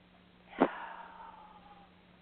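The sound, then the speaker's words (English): A single quick, sharp inhale through the nose during a guided relaxation exercise, fairly quiet, with a soft airy tail fading over the next second. “let's reinforce the positives at 0 and at 1 with a deep, deep cleansing breath in.”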